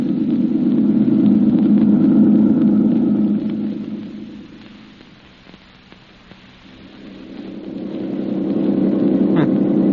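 A car driving along a road gives off a low, steady rumble that fades to a quiet dip midway and then builds back up to its full level.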